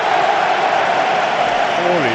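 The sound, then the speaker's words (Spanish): Stadium crowd ovation for Athletic Bilbao striker Aritz Aduriz at a football match: a dense, steady roar of clapping and crowd noise that holds its level throughout, with a voice talking over it. “Devuelve los aplausos el delantero centro del Athletic y ahora la ovación evidentemente va a ser para un Aritz Aduriz, al que además, bueno, de alguna forma ahí se le va a reconfortar.”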